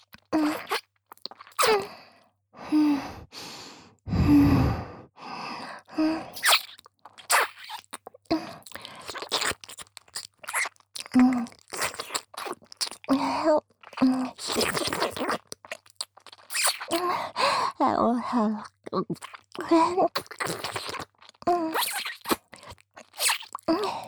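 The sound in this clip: Wet mouth sounds of nibbling on ears, heard as many soft, irregular bursts of smacking and crunching separated by brief quiet pauses.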